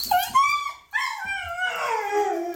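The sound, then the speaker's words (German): A dog whimpers and whines with excitement, eager to head out for a walk: several high-pitched, nasal whines follow one another, the last stretched into a long, drawn-out plaintive tone. There is no talking. “es geht dabei um meinen Hund und oder meine Hunde und wie es so ist, wenn wir durchstarten und spazieren gehen wollen. Aber hört mal bitte selber.”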